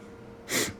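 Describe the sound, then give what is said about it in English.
One short nasal sniff, a quick breathy rush of air through the nose that swells and fades within a fraction of a second over a low, steady background hum. “Sniff.”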